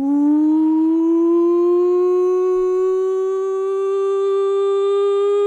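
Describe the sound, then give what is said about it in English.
A siren sound effect gives a loud, continuous wail, rich in harmonics, that rises slowly in pitch over about five seconds and stands alone without talk. “that is the first nonsense siren of 2020”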